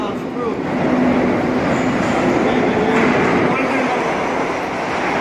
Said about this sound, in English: The 42! The 42 is here. R42 J train.